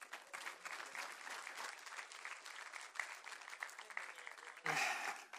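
An audience at a church service applauds to welcome the pastor up, with steady, dense clapping throughout and a brief louder surge near the end.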